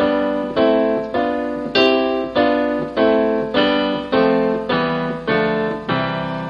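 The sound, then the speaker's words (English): Keyboard chords built from the notes of a scale sound one after another in an even, steady series. Each bright, ringing chord decays before the next is struck, with no voices. “So basically what I'm doing here is I'm playing the notes in the scale, and I built them up into chord form”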